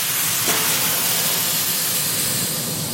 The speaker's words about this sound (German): Den Blick nach hinten, ob die Bahn frei ist. Er startet den Gashebel.